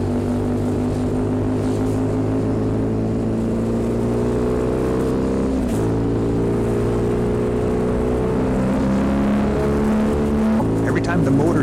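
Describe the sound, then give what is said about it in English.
Motorcycle engine carrying two riders accelerates and shifts up through its gears: a steady, multi-toned droning hum that climbs slowly, broken by brief dips where each gear change happens. “letting his hand off the gas with his right hand, pulling the clutch down with his left hand, and lifting up with his toe to put it into the next highest gear”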